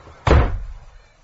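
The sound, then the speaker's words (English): A toilet door being shut from the inside, one solid thud that fades away quickly. “There's always a toilet. Yes! And I can lock the door from the inside.”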